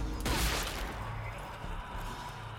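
Video game gunfire during a shooting session: a loud, dense burst of shots near the start fades into a steady, noisy rattle that continues to the end.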